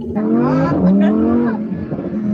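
A fast sports car that can reach 0 to 60 in under three seconds drives with a loud, steady engine drone whose pitch wavers and shifts throughout.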